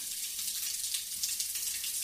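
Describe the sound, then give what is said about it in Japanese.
Hot shower water running, a steady, even hiss of spray, quiet and continuous with no voices. “シャワー熱くない？”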